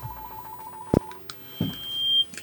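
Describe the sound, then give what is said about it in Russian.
Telephone signal tones as a call comes into a radio studio: a steady low tone, a couple of sharp clicks, then a long, thin, high-pitched beep. “у нас звонок в студии, давайте послушаем.”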